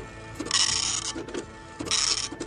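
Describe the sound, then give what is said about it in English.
A dot matrix printer printing, heard as two fairly quiet bursts of buzzy, rasping print-head noise with softer mechanical rattling between them. “I got a dot matrix printer. I don't know if we could fire it up.”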